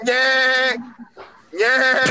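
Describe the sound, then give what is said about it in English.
A person imitates a sheep's bleat, giving two long, nasal, wavering bleats separated by a short break that holds a quieter bit of voice. “I gotta learn how to be a sheep. I will be a sheep”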